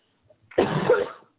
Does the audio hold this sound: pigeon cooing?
no

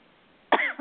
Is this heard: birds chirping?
no

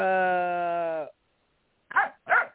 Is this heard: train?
no

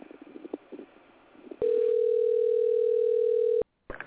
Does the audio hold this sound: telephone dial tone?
yes

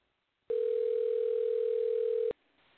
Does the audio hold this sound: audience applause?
no

